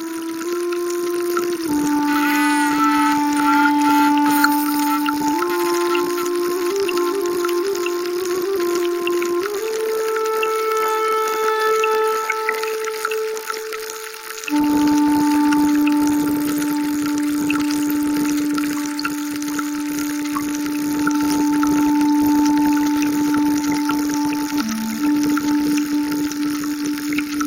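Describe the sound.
Amplified freshwater hydrophone sounds of underwater insects and other critters: a dense, continuous crackling, watery texture under steady held tones that shift between pitches in a few distinct steps.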